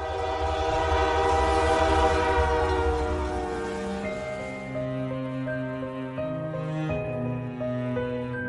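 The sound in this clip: Rumbling train interior heard from on board, a loud steady roar overlaid with sustained horn-like tones that change pitch partway through, in a Lovecraftian horror audio drama, with no voices.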